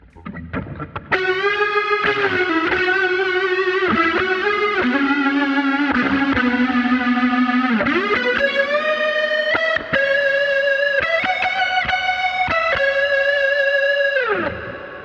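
Gibson ES electric guitar played through psychedelic effects: sustained, chorus-soaked and slightly distorted notes ring loud and steady, shifting through several held pitches and chord changes.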